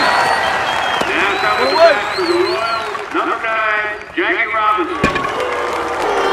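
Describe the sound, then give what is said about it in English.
Crowd noise in the stands at a baseball game between the Brooklyn Dodgers and the Montreal Royals, with applause and murmuring under talking voices, and a couple of sharp knocks. “The white folks in the stands boo while the black spectators applaud.”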